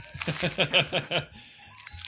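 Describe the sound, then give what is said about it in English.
Crinkling and crunching Foley noises made to imitate a crackling fire come as a quick burst of about six sharp, papery crackles, then fade to a few softer rustles. “Hey, look, I'm a Foley artist. Hear that? It's fire!”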